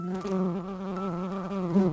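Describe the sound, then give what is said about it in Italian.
Buzzing of a queen bee flying into a room: a steady, continuous drone with a slight waver in pitch, heard alone with no talk. “volò nella stanza la regina delle api.”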